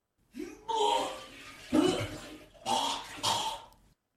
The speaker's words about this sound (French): Excusez-moi, je voulais boire un petit peu d'eau. Glou, glou.